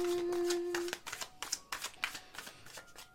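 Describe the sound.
Tarot cards being drawn and handled: a quick run of papery flicks and soft slaps in an uneven rhythm, with faint talk alongside.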